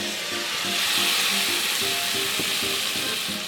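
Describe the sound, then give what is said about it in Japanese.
Whisky poured into a hot pan of diced apples over high heat gives a loud, steady, hissing sizzle with a dense, bright crackle throughout. “ここでもう強火に戻しても大丈夫ですので、ここで今日はウイスキーをちょっと入れますね”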